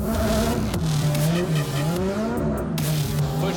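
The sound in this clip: A drift car skids with tires squealing loudly and continuously. The squeal wavers up and down in pitch over a steady engine drone.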